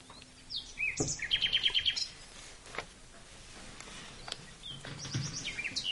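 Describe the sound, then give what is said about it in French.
Nightingale song drifts in through an open window in spring. Faint, quick trills and chirps come in two short bursts, one early and one near the end, over a quiet background hiss. “Tu entends ce petit bruit? C'est le printemps. C'est le chant d'un rossignol qui te parvient à travers la fenêtre que le maître d'école vient d'ouvrir.”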